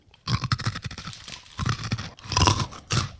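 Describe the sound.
Crispy rice cake chunks, fried and seasoned with garlic, sweetness and chili heat, crunch loudly between the teeth. Bursts of crisp crackling and chewing come in several uneven clusters with short pauses between them.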